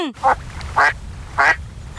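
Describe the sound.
Duck quacking three loud, raspy quacks spaced apart, the second and third close in pitch, over a low steady background.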